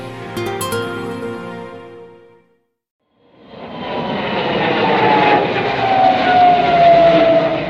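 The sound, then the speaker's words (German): Loud engine roar of a Douglas Skyraider fighter aircraft flying low over enemy territory, swelling in after a brief silence into a heavy, steady drone that grows louder toward the end. “Der Jäger vom Typ Douglas Skyrider fliegt tief über Feindesland.”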